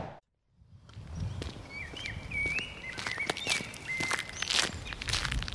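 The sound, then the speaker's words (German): Footsteps walking onto the grounds of a former brewery in Berlin-Kreuzberg: a quiet run of soft scuffing steps with faint bird chirps above, after a brief moment of near silence at the start. “Ich laufe auf das Gelände der ehemaligen Schultheiß-Brauerei am Berliner Kreuzberg.”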